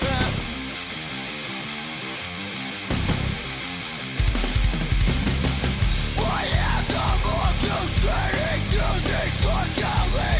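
A heavy theme song for the Mongoose File segment starts with a thumping beat and bass, then grows fuller and louder after a few seconds as brighter melodic lines join in.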